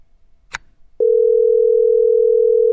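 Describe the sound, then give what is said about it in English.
A phone line tone sounds while a call is being placed: after a brief click, a steady, even mid-pitched tone starts and holds unbroken to the end. “Come on, pick up.”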